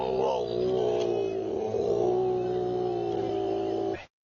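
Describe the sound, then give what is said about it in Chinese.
A male koala bellows at night, giving a deep, rasping, harmonic roar that runs unbroken for about four seconds before cutting off abruptly. “雄性树袋熊是没有育儿袋的。布鲁斯会在晚上发出这样的吼叫”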